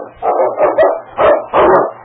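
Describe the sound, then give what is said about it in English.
A large dog barks near icy water in a rescue. Several gruff, fairly low barks come in an uneven burst, loud and with no voices over them. “The great dog hesitated only a second before going into the icy water.”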